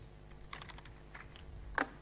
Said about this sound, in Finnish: Eli kirjoitan tämän tähän SRC-hakemistoon suoraan tähän luon nytten tarkkuusnimisen luokan.